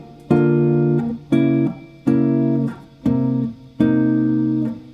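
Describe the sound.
A guitar plays a B flat chord for Basin Street Blues, strummed five times at an even pace, each bright, full chord ringing for most of a second before the next strum.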